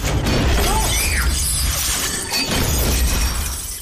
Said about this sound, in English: The family looks to the opening as the entire lid crashes to the floor.